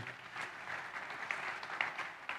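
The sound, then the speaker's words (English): A church audience claps their hands during a worship service, a soft, dense patter of many overlapping claps that holds steady throughout. “Come on, clap your hands for Jesus.”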